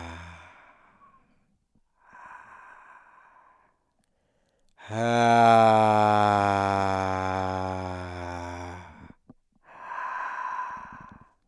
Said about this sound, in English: I notice myself making a kind of cave-like sound on the inhale, and that's just really me visualizing